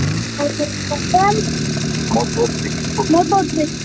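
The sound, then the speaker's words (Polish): A motorcycle engine gives a steady, low, growling rumble that continues throughout, with people talking over it. “Motocykl. Bardzo dobrze. Nawet go teraz słychać tutaj. Warczy. Trochę groźnie.”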